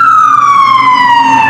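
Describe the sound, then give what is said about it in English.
A fire engine siren wails outside a firehouse as a loud, steady tone that glides slowly downward in pitch, with no voices. “That thing didn't even get back into the firehouse. No. Well, they just did a circle in front and sent him back out again.”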